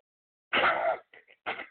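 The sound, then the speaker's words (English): A woman coughs during a prayer for healing: one longer, harsh cough, then faint breathy sounds and a second, shorter cough, with nothing else around them. “Cough it out, ma'am.”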